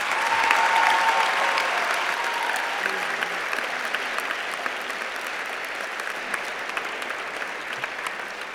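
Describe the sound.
An audience at a college lecture event breaks into warm applause to welcome a guest speaker, dense clapping that starts loud and slowly tapers over several seconds.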